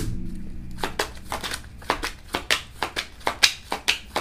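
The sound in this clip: Tarot cards being shuffled make many quick, regular crisp snaps, starting after a short low hum and continuing steadily to the end at moderate loudness.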